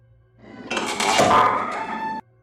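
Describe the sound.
A hospital room door swinging shut, a rattling, clattering swell that builds for about a second and a half, holds loud, then cuts off abruptly.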